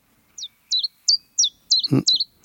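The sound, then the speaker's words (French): Common chiffchaff song: a steady, evenly spaced run of short, high, sharp notes that hop between two pitches. A brief low thump sounds partway through. “Alors ça, on l'appelle le compteur d'écu, parce qu'on a l'impression qu'il compte ses petits sous. C'est le pouillot véloce, qui est un oiseau très très commun”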